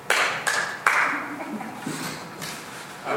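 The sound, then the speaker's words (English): A few scattered, separate claps at a city council meeting, each sharp and spaced apart, with talk murmuring between them. “You want to clap for me?”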